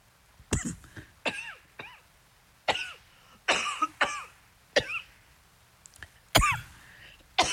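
A man coughs repeatedly, trying to clear something caught in his throat. Many short, harsh, fairly loud bursts come in uneven clusters, separated by quiet gaps.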